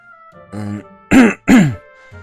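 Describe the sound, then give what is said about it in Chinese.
An embarrassed throat clearing, two sharp, loud rasping bursts in quick succession, with fainter voiced sounds just before and after. “难掩尴尬的咳了一声”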